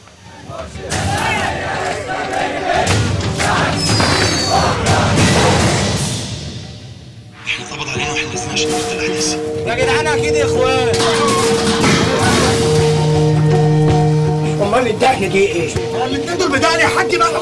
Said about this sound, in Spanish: en lo que es la película: agobio de bombas y de voces y de jaleos, ¿vale? Así que vamos a escucharlo.